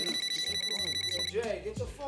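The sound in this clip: A phone rings with a faint, pulsing electronic ringtone of repeated high tones for about a second, mixed with voices that continue talking afterward.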